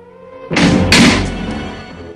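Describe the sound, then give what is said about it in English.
A catch on a sarcophagus snaps shut with a solid thunk, followed about half a second later by a second, slightly louder hit, then a fading resonant tail. “He reaches up to the catch, and it snaps shut again.”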